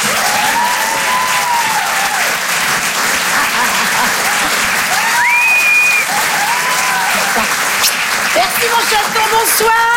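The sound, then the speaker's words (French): Applause and cheering from a stand-up comedy audience encouraging the next comedian, a dense, loud, continuous clapping that holds steady for the whole stretch. “Faites du bruit s'il vous plaît, merci d'encourager Karine Dubernet.”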